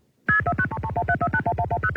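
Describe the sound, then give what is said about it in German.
Touch-tone dialing beeps as a telephone number is keyed in to reach an exchange, a fast, even run of many short two-tone pulses, each digit a distinct pitch, loud and alone after a brief silence. “Das war das Dialen.”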